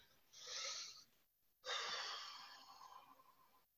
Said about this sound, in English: So go ahead and get comfy and let's take some nice breaths into our belly.